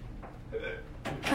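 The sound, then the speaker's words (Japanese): Persistent hiccups: a few short, quiet, voiced catches in the throat over a faint background hum. “しゃっくりなかなか止まらないですからね”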